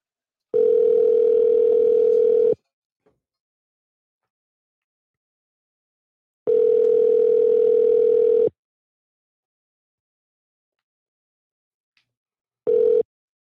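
A telephone ringback tone sounds while calling a seafood restaurant. It is a steady, mid-pitched electronic tone in two-second bursts separated by longer silences: two full rings, then a third cut short.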